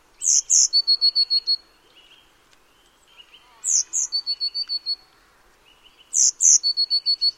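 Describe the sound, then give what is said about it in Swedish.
Blue tit song in three separate bursts, each a rapid run of about six or seven clear, high, evenly spaced notes. The bursts are separated by near silence with only faint background noise. “Nu får ni lyssna på blåmesen redan innan här, så behöver ni inte gissa.”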